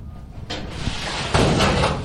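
A rusted lock gives way and a storage locker door opens: a rough, rattling scrape starts, then swells into a louder, longer grinding noise.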